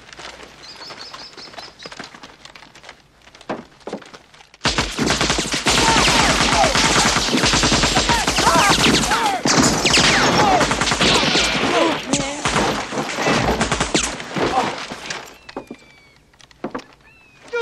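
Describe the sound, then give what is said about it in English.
Automatic fire from an AK-47 assault rifle during a military training exercise in the film Heartbreak Ridge. After a quieter opening, a long, loud, dense volley of shots rattles for about ten seconds before easing off. “What was that? Sir, that's an AK-47 assault weapon. The preferred weapon of our enemy. It makes a very distinctive sound when fired at us, sir.”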